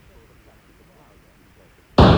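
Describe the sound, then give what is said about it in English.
A single pistol shot bursts out suddenly, one loud sharp bang that breaks a long stretch of near-quiet, low background hush. “A neighbour saw the flash of the powder and heard the shot, but since everything remained quiet, he thought no more about it.”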